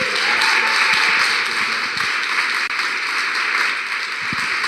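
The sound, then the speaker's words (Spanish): A church audience applauds to welcome a pastor, a sustained, even hiss of clapping that holds steady from start to finish without speech. “Quiero que le demos hoy desde sus casas también y aquí en la iglesia un aplauso muy especial de bienvenida al pastor Lau Yair hijo que viene hoy a compartir el mensaje.”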